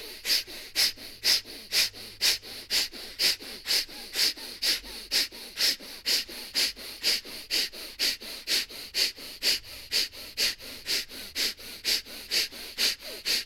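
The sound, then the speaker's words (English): Deep, forceful breaths during a breathing exercise, drawn in a fast, steady rhythm of many sharp, sniffing inhale-exhale cycles. The airy, hissing breaths carry on alone without talk. “So deep in again. Breath. Yep. Fierce breaths.”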